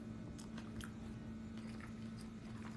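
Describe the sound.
Faint, wet chewing of a sandwich, with soft squishy bites and mouth clicks in a loose irregular rhythm over a steady low hum.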